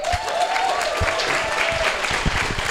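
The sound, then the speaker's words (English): Audience applause welcoming a guest at a live show in Charleston: a dense, even wash of many hands clapping, sustained at a steady level throughout. “Let's hear it for Mark Bowden.”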